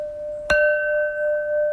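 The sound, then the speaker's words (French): A single sharp tap on porcelain sets off a clear, crystalline ring that holds two steady high tones and sustains evenly to the end. “Ce son-là, il n'y a que la porcelaine qui le donne. Et pourquoi? Parce qu'en fait, c'est un son cristallin qui nous montre ça la solidité.”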